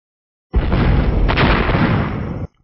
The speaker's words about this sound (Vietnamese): Sau đó là từng hồi tiếng nổ nặng nề vang lên